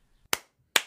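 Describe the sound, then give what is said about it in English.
Two sharp hand claps from one person clapping for a guest, spaced a little under half a second apart. Each is a crisp, bright smack that decays quickly, with near silence around them. “Guys, that's the sound of me clapping for my guest,”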